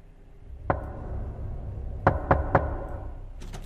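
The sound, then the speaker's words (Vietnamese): Knocking on a wooden door at night: a lone sharp knock, then after a pause a quick run of three knocks, with a couple of fainter taps at the end, all over steady low background noise. “Lúc này, ở bên ngoài cửa, lẫn trong tiếng gió thổi cứ vù vù vi vút trong đêm, thì vang lên có tiếng gõ cửa.”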